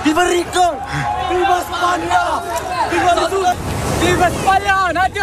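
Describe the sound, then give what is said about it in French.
Crowd of migrants shouting as they arrive by sea at Ceuta, crossing the border from Morocco into Spain, some by swimming. Many voices chant and cheer over constant babble, with a rushing wash of surf-like water noise partway through. “Ce que vous entendez, c'est l'arrivée par la mer de milliers de migrants”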